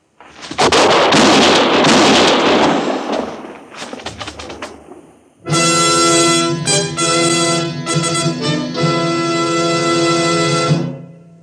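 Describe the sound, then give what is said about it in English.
Gunshots in an old-time radio drama where a marshal confronts an outlaw: a loud, noisy burst with several sharp cracking reports, then an abrupt switch to loud, dramatic orchestral music that runs to the end. “I heard the shots, Matt. I see Clegg still lying there.”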